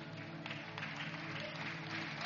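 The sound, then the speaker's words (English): An audience claps at a religious gathering, a steady wash of hand claps that holds at an even level throughout, with low sustained tones beneath. “Thank you for clapping for them.”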